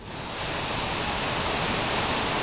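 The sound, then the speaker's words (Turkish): Water sprays onto freshly cast, red-hot steel slab in a steel mill as it cools between rollers. It makes a dense, even hiss that swells in the first moment and then holds steady. “Soğuması ve işlemi hızlandırması için su püskürtülüyor.”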